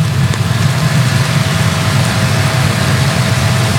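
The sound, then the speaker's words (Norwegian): A royal family's limousine drives past in a procession, giving a loud, steady engine roar and broad road rush with a deep low rumble that holds level throughout. “Og der kommer også limousinen med kongefamilien.”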